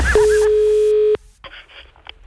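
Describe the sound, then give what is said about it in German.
A single steady telephone line tone on a call coming in to a radio morning show, held loud and unbroken for about a second before it cuts off, leaving a few faint scattered noises. “Das Telefon.”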